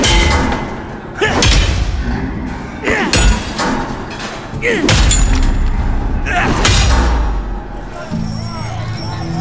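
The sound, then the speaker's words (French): Heavy metallic thuds of a studded metal pipe swung like a sledgehammer against the fixings of a metal ladder, its uprights bending under the blows. Several hard impacts land amid rumbling noise, with voices talking over them. “Il saisit le tuyau de métal clouté et s'en servit comme d'une masse pour frapper les attaches de l'échelle. Et bientôt, les montants métalliques se déformaient sous la force des impacts.”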